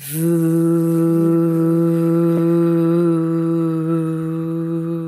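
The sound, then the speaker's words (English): A single voice holds a long, steady 'voo' on the exhale, a low buzzing hum with vibrating lips. It stays at one even pitch and loudness for about five seconds. “But you take a nice deep inhale and then you exhale and make the voo sound like this.”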